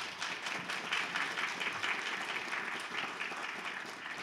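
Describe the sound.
A church audience applauds a guest preacher, many hands clapping in a dense, steady stream at an even, moderate level from start to finish.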